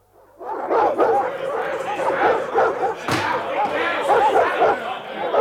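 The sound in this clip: Several dogs barking and yipping in an excited, unbroken din during a tense scene in a radio drama, with many overlapping barks and whimpers mixed with loud, agitated voices.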